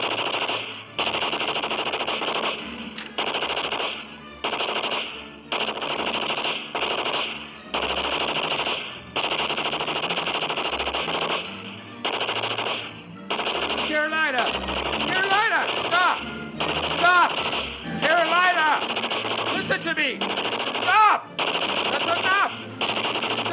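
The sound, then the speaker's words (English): An old 1930s Tommy gun fires many rapid, rattling bursts, each broken by a brief pause. The bursts stay loud and steady all the way through. “Somewhere in the house, she found an old 1930s Tommy gun, and she sprayed the yard with lead.”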